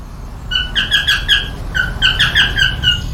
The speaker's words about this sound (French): Regarde cette petite perruche. Ce sont des perruches calopsites.